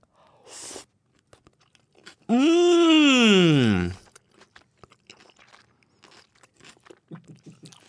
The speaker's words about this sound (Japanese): 野菜炒め食べましょう。